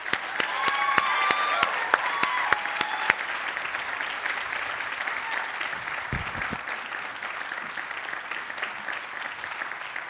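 An audience applauds to welcome a guest pastor at Life Church. Dense, sustained clapping runs the whole length, crisper and louder at first, then settling into an even patter.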